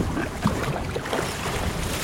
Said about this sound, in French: C'est pas le plus agréable parce que là, le vent souffle un peu.